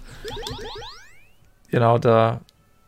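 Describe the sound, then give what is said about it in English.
A video game's 'can't do that' error sound effect from an RPG Maker game: a quick run of several rising, bouncy chirping sweeps that fades away. A short moment of someone talking follows. “the can't do that sound.”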